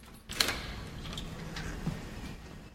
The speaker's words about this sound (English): goes into a hotel basement and opens the door to a storeroom